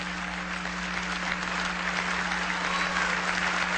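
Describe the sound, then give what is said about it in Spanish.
Applause for Venezuelan doctors and health professionals at a public event: sustained, even clapping from many hands that holds steady throughout, over a constant low hum. “A todos los profesionales, pues, de la medicina y de la salud, un gran aplauso.”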